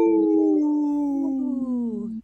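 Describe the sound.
A person's voice imitates a wolf howl: one sustained, rich tone held for about two seconds that glides slowly downward in pitch and ends abruptly, alone and fairly loud.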